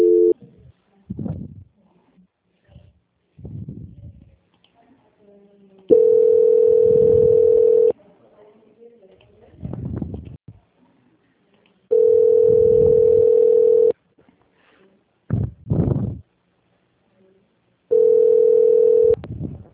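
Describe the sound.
Telephone tone during a call transfer, a steady mid-pitched tone sounding in three separate stretches of about two seconds each, with short bursts of voice-like sound in the gaps.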